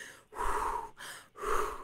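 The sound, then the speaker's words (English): Heavy, out-of-breath breathing: a few loud, rushing breaths in a slow rhythm, separated by short pauses, with no words spoken. “gosh, I'm getting out of breath here because I just get so like raw into this. Let me take a minute.”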